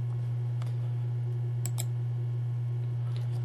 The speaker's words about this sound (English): So, our first click.